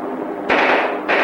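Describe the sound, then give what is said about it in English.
Gunfire traded between helmeted soldiers in ground combat: after a quieter opening, a loud, dense burst of rapid shots erupts, breaks off briefly, then resumes. “Now, on the ground, helmeted soldiers exchange gunfire.”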